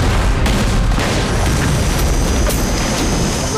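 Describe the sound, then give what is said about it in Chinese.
Artillery fire from two cannons bombarding in turn on a battlefield: a dense, unbroken roar of booms and blasts with heavy low rumble throughout, the separate shots blurring together. “集中两门大炮轮流轰炸，别让他们发现咱们没有炮弹了。”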